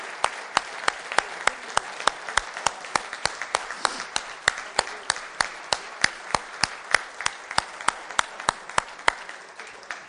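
A church audience applauds in a steady, rhythmic beat, with many sharp claps evenly spaced throughout. The clapping is moderately loud, with no voices over it.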